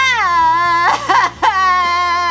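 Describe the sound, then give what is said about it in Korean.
A person crying loudly in a sustained, high, wavering wail, broken in the middle by a few choked sobbing gasps before the wail resumes. “또 울어 또 울어”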